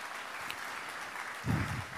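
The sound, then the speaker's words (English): An audience claps at a church gathering, a dense, steady patter of many hands held at a fairly quiet level with a slight swell near the end. “But give the Lord a great hand clap for that.”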